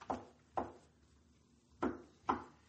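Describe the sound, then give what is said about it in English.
Four faint, dull wooden knocks as a trunk latch is worked open from inside, falling in two pairs with a long quiet gap between them. “Open the latch from the inside. You can come out now.”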